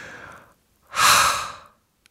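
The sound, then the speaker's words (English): Two deep, forceful breaths taken during a calming relaxation exercise: a softer first breath, a pause, then a louder, longer rushing exhalation that fades away. “taking a couple of deep, forceful breaths and think and feel that that uneasy sensation is expelled with your outgoing breath.”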